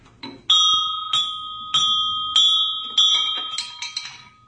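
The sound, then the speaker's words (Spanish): A bell that is an exact replica of the historic Dolores bell rings in a series of clear, bright metallic strikes. Each strike sustains into the next, and the strikes come faster near the end, with no voices. “esta campana de Dolores, que es una réplica exacta”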